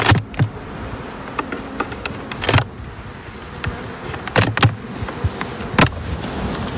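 Honeybees buzz around an opened beehive while the beekeeper works without a lit smoker, a dense continuous hum broken by scattered sharp clicks and knocks.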